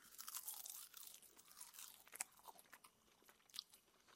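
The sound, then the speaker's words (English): Crisp crunching as someone chews raw, crunchy ramp leaves, with many quiet, close bites and brittle crackles in an uneven rhythm and no talking. “This is the sound of eating ramp leaves. They're crunchy.”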